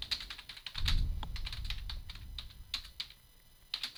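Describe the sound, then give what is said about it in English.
Fingers type on a computer keyboard, a faint, irregular run of many quick key clicks with short pauses between bursts and a soft low rumble partway through. “I don't know why I can't type the word outside.”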